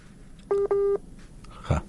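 Two telephone dialing tones: a short steady beep, then a slightly longer one right after, followed by a faint brief noise.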